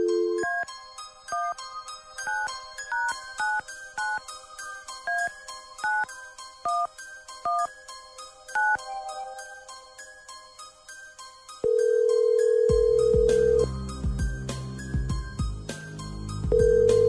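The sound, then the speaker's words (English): Telephone dialing: a long run of rapid electronic tone beeps at varying pitches, then a loud, steady tone that breaks briefly and resumes, like a line ringing out. “Okay, hang on then. Here we go. Dialing at random.”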